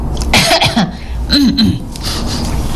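A person puts on a fake cough: a few short, throaty voiced bursts that sound forced rather than natural, fairly loud, with no other talk in between.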